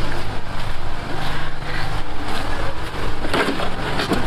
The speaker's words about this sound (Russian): Воды на сегодняшний день нет, это генератор, из-за этого есть электроэнергия.